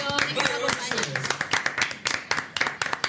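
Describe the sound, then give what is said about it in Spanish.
Applause marks a coastal Chilean radio station's 28th anniversary. Talk at the start gives way to a run of sharp, separate hand claps that are clear and fairly loud. “un aplauso a Radio Vacaciones”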